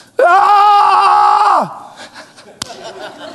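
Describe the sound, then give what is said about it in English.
A prayer shout of joy, given as a single loud, sustained vocal cry that holds a steady pitch for over a second and then drops away, followed by a few faint sounds and one sharp click. “See, a prayer shout is a shout of joy. It's a shout in hope. It's a shout of faith. It's a shout of triumph. You say, well, what does it sound like?”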